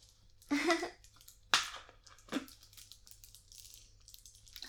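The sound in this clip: Sipping of tea: three short, wet slurping sounds, the first longest and loudest, then quieter rustle with no talk.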